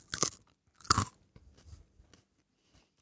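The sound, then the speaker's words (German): Crunchy paprika being chewed: two loud, crisp bites followed by a run of softer, irregular chewing crunches. “Paprika. Ist das eigentlich ein Fehler, wenn ich die jetzt besonders zerkaue?”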